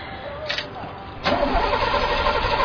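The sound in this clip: A car engine starts: a quieter cranking whirr, then the engine catches and settles into a louder, steady idle rumble that holds to the end.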